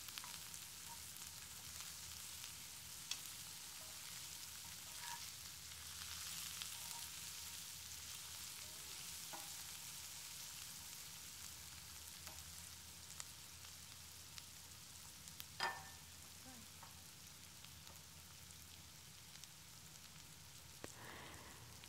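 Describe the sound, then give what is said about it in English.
Garlic and onion fry in a sauce during a home cooking session with a soft, continuous sizzling hiss. Occasional tiny pops and clicks rise above it, quiet throughout with no talk. “sauce. Adding garlic, our onion, cooking it a little bit.”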